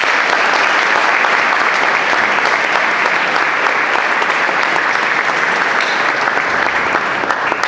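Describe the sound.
Audience applause at a conference in Paraná after a speaker is introduced: dense, steady clapping from a large crowd that holds an even loudness for the whole stretch, with no talking over it.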